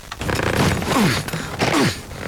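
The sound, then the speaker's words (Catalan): A suitcase being forced shut, its zipper straining: two rasping, scraping bursts with creaky, sliding tones and no voices. “Què et passa? Que no em tanca la maleta.”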